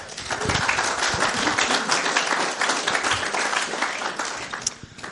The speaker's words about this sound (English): So welcome up to our panel this morning, Claudia, Linda, and Erin. Let's give them a warm hand.